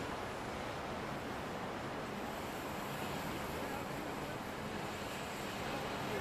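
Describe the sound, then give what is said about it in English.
Icy blizzard wind driving snow, a steady, even rushing roar with no gusts or breaks, kept fairly quiet throughout. “The icy wind tumbles around you, biting at your skin.”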